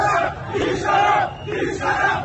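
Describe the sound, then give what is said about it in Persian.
Protesters chant slogans in unison during a bazaar merchants' strike in Tehran, with loud, rough massed voices rising and falling in repeated waves. “با سر دادن شعار نترسید ببندید از صاحبان دیگر کسب و کارها”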